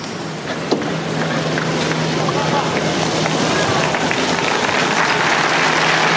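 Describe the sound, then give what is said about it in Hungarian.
Pilgrims at Pope Francis's Wednesday general audience applaud after his blessing. Dense, steady applause from a large crowd runs throughout, with a low hum and talk on top. “Szokásukhoz híven a zarándokok ma is tapssal köszönik meg Ferenc pápa áldását, az ő tanítását”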